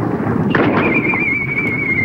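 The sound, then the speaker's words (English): Flaring artillery shell striking a road sign in a snowy wartime scene: a short muffled blast over low rumbling, followed by a long, thin, high whistling tone. “A flaring shell strikes the road sign to Bastogne.”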